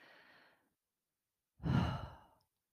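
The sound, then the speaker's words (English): A slow, deep breath taken as part of a guided breathing exercise, with a soft, faint breath followed after a pause by a longer, louder, airy breath that fades out. “Step two, breathe. Slow, deep. Just take a breath in.”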